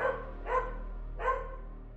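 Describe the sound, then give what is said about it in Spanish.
Dog barking twice, faint and muffled, the two barks spaced apart over a steady low hum. “El ladrido de un perro,”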